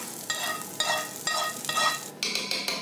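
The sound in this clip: Roasted onions and parsley are stirred into meat frying in a pan, giving a continuous sizzle. A utensil scrapes through the mixture in repeated, evenly spaced strokes, with a brighter crackle near the end.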